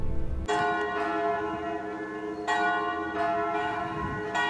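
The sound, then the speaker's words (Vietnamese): Church bell ringing next door, a few loud, resonant strikes whose long, shimmering overtones overlap and sustain between blows, with no voices. “Chuông nhà thờ bên cạnh đã vọng.”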